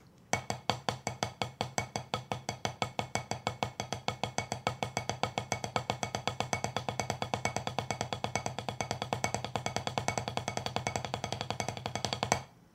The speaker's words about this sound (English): Now, just because one hand is playing taps and the other hand is playing stroke tap combo, it doesn't mean that that the two hands have to sound different. So ideally, it sort of sounds like this.